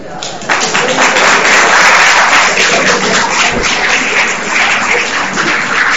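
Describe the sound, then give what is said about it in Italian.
Audience applause at a live debate in Italy: loud, continuous clapping that swells after a brief quieter start and holds steady throughout. “Loro hanno applaudito.”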